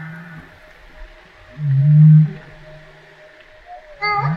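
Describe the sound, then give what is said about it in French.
A humpback whale vocalizes in reply, first with a loud, long, low moan and then with a shorter call at the end, over a quiet steady hum. “Est-ce que ça, c'est une baleine à bosse qui répond, ça?”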